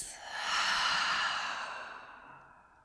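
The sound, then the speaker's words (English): A deep, long breath in and out during a guided eyes-closed relaxation exercise: one slow, airy breath that swells, holds steady, then gradually fades away, soft and alone without any talking. “And we're going to take another deep, long breath in and out.”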